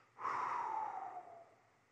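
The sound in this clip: A single forceful breath out: a breathy rush that starts abruptly, holds strongly for about a second, then trails away into quiet.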